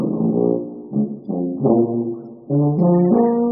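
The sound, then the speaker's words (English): A tuba, one of the exhibits in a tuba museum in Durham, North Carolina, plays a short run of several deep, sustained brassy notes that step between pitches with brief breaks between them, heard alone with no talking. “That is the sound of one of the exhibits in the Tuba Museum in Durham, North Carolina.”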